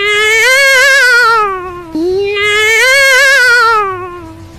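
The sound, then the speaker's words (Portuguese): A cat screaming gives two long, very loud yowls, each drawn out for about two seconds with a wavering, strained pitch and a brief break between them. “Você acabou se espantando com o grito do gato.”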